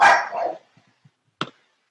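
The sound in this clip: Dog barking: an opening longer bark with a double push, a few tiny faint sounds, then one short, sharp bark after a pause.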